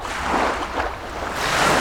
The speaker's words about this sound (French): c'est l'été, vous entendez la mer sous ma voix.